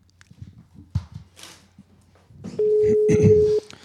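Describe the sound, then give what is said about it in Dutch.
Telephone tone while a call is placed: low rustling and handling noise, then a single steady electronic tone about a second long stands out before cutting off. “Ik ga Lammert de Bruin bellen. Ik hoop dat hij opneemt.”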